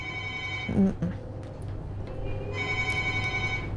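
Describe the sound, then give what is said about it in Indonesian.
A telephone rings with an incoming call in two bursts of a steady, buzzing electronic tone, separated by a short gap with faint clatter. “Sudah masuk satu telepon.”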